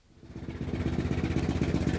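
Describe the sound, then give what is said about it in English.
Engine of a rusty blue Ford Bronco pulling into a gas station and tire shop in central Wyoming: a low, throbbing rumble with a fast, even pulse that swells over the first half second, then holds steady and fairly loud. “A rusty blue Ford Bronco pulls into a gas station and tire shop in central Wyoming”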